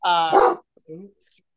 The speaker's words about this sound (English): I have a rescue dog, so that's what all the freaking noise has been about.